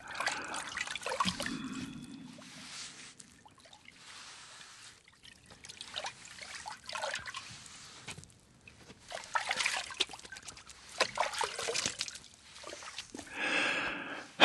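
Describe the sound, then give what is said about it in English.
Water trickles and splashes as blood is washed off a person's skin, coming in soft, irregular bursts of pouring and dribbling with brief quiet gaps between them. “let's wash the rest of this blood off of you.”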